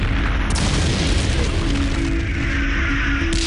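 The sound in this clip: An artillery barrage fired at night during the Normandy fighting of August 1944, opening a tank offensive: a loud, continuous rumble of booming explosions that blend together without pause, with no voices.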